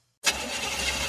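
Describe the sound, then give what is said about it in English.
A car engine sputtering and breaking down: after a short silence, a loud, rough engine roar starts abruptly and runs steadily for about a second, with no voices. “That sound is every driver's worst fear. How much will the repairs cost? Is it your engine, your transmission, or worse? A car breakdown could cost you thousands to repair, but not if you have CarShie”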